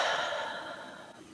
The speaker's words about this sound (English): Another deep breath in and exhale.